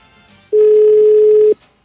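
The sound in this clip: Ringback tone of a late-night phone call that goes unanswered: one steady, mid-pitched electronic tone lasting about a second, loud and clean against a quiet line, then cutting off.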